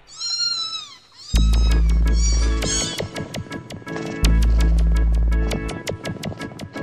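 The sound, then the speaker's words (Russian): A cat gives a drawn-out, wavering meow alone at the start, then loud rhythmic music with heavy bass cuts in and plays to the end. “А кто лучше всех пролезет под забором? Кошка.”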